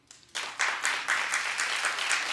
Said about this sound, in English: Clap if you believe her.